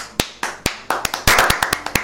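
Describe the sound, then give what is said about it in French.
Hand clapping by a single person in a radio studio, many sharp, loud claps at an uneven pace, spaced widely at first and then coming faster, with no talking. “J'ai promis d'applaudir, j'ai fini par applaudir, tu vois.”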